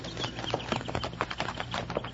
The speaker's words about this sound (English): those horses over there